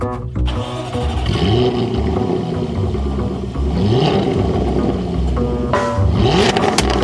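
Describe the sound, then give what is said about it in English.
A 2013 Jaguar F-Type convertible engine starts with a brief crank, catches, and settles into a throaty idle. A few rising throttle swells follow, loud and alone. “So we're going to go ahead and start up the 2013 Jaguar F-Type convertible.”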